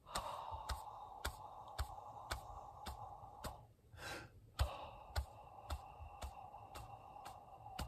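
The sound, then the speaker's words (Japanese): Breathing exercise in a music studio lesson, exhaling for seven beats and then inhaling: steady, evenly spaced clicks keep the beat, and a single audible breath breaks in midway before the ticking resumes. “まずは呼吸を7拍吐いて8拍目に吸うのパターンです。”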